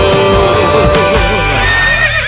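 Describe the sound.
A horse whinnies loudly, its high neigh wavering in a quavering, trembling pitch before trailing off toward the end.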